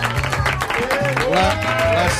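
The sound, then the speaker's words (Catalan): Studio audience applause for secondary school students and their teachers in a Catalunya Ràdio studio: steady clapping mixed with voices and cheering from the group. “Un aplaudiment per ells i per les seves professores.”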